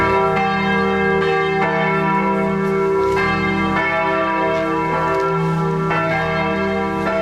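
Church bells of St. Georg church in Wendessen ring out loudly in a steady, overlapping peal, with many strokes sounding in a regular rhythm and ringing tones sustained between them, with no voices.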